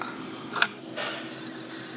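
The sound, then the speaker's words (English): A brief metallic tinkle of coins from a card-reader tip jar, one short bright jingle followed by a softer rattle over a steady background hiss. “I heard a tinkling sound of coins, which means that I can do step 3”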